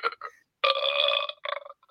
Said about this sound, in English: He does like a burp